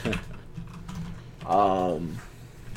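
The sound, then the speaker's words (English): Typing on a computer keyboard, a run of quick, light clicks with a brief voice-like sound partway through. “I almost typed Floyd Money Mayweather in there.”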